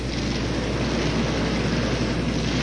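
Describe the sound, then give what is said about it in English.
Racing lawn mower engines roar during a heat race, a loud, dense drone that holds steady with no clear break or change in pitch. “The leaders are going down the backside with Staglin back in the number 2 position and losing ground. The green flag is out. We have a race underway. And these two mowers.”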